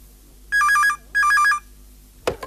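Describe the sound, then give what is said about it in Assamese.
A telephone rings in two short electronic bursts, each a quick trill of alternating high notes with a pause between them. A brief clatter follows the second burst. “কোনোবাই phone কৰিছে”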